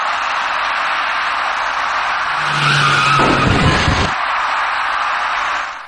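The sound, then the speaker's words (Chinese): A dark car skids at a city intersection while swerving to avoid an electric bicycle rider. A sustained tire squeal rises over a steady traffic hiss, then gives way to a loud, harsh burst of noise. “但是一辆由北向南开过来的深色小客因为躲闪不及，与骑车人发生了相撞事故。”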